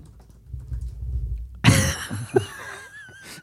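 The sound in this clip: Typing on a computer keyboard: a run of soft, quick clicking keystrokes, cut off by a sudden louder burst of noise with tonal, voice-like sounds after it.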